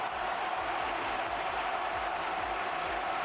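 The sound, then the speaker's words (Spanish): Stadium crowd at La Cartuja roaring in recognition of footballer Gavi's performance during a Spain national team match; a steady, dense wash of crowd noise, fairly quiet and unbroken for the whole stretch. “Escucha, Manolo, cómo reconocía el público de la Cartuja la actuación de la perla de los palacios.”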